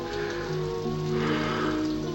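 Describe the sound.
Rain falling on a surface, a steady, even hiss that holds at the same loudness for the whole stretch, with no voices.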